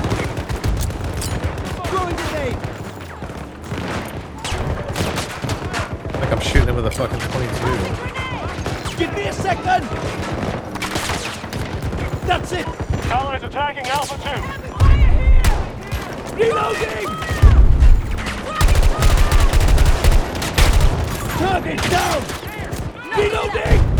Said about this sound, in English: The drop off of the DMRs are crazy. The thing is, is the bullet drop is fine. It shoots straight as an arrow, but it doesn't do any fucking damage.